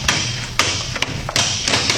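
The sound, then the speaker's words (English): A lock being smashed open at a newspaper office door, heard as several heavy, dull blows at uneven intervals, each a loud thud over a steady background hiss. “All right, Buck. Smash that lock.”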